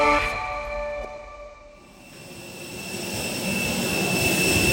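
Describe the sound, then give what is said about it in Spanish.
Jet engines of an airliner on the runway at Dallas airport give off steady high whining tones over a broad rushing roar that dips briefly and then swells louder again, with no voices. “Estamos ahora mismo en la pista de despegue del aeropuerto de Dallas. Estamos pasando justo al lado del ala del avión, a punto de subir por la escalerilla.”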